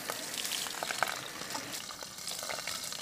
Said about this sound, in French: Ensuite, on va rincer gentiment.